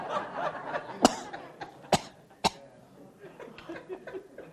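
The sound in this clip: Three sharp, abrupt coughs from a person clearing something caught in the throat, spaced roughly a second apart, with softer vocal sounds between them.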